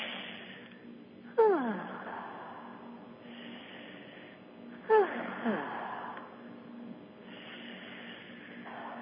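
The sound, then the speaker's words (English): Gentle breaths are drawn in and let out through the mouth during a relaxation exercise. Two clearer airy inhales stand out over a soft, steady breathy hiss. “Now relax your jaw and breathe gently and easily in and out through your mouth. Focus on the inhale and just let the exhale go. So it sounds like this.”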